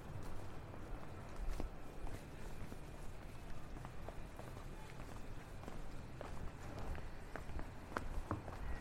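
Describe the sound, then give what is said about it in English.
Footsteps walking down a London street, a faint, steady run of many even steps that keeps a regular pace throughout. “We're walking down the street a little ways, turn right on the first corner, Langley Court.”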